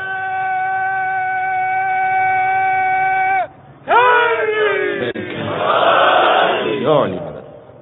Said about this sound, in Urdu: مل کے نعرہ حیدری لگائیے, یہ امام حسن علیہ السلام کی خوشنودی کے لیے میں کہہ رہا ہوں. سب جواب دیں